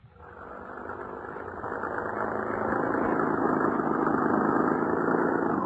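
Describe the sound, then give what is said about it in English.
Engine drone of a car on a drive out into remote country, swelling over the first couple of seconds and then holding a steady, continuous rumble, with no voices. “How much farther do we have to drive into the wilds, young man? We're almost there now.”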